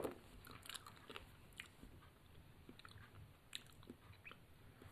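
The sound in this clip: Chewing on a mouthful of plain grass, a steady run of crisp, crunchy bites and wet mashing that carries on throughout at a fairly quiet level, with no talk.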